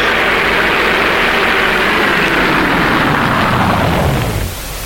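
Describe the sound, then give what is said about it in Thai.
A yellow van pulls up: a loud, steady, low engine roar with broad rushing noise holds for several seconds, then abruptly drops to a quieter rumble near the end. “เอ๊ะรถใครอ่ะ นั่นสิคะไม่เคยเห็นเลยรถตู้สีเหลืองใครนะ”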